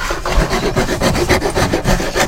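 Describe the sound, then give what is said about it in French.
A file and rasp shape and rough out a piece of wood, rounding its edges. Loud, coarse rasping strokes repeat in a steady back-and-forth rhythm, many in quick succession. “Passe la lime, la râpe. Ouais. Tu dégrossis là, là, et après à la ponceuse”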